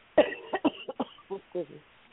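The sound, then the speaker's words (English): A sharp cough opens, followed by a run of short voiced bursts, all fairly faint and quick. “I made you cough.”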